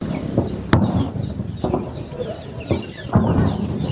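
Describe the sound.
Birds call among green orchards of pomegranate and grape in Kandahar's Arghandab area: bright, repeated chirps and short whistles over a low rustling background, with a few sharp knocks scattered between.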